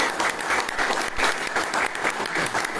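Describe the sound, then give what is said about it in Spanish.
Audience applause: dense, steady clapping from many hands continues throughout at a fairly loud level. “para quien pido un fuerte aplauso, por favor”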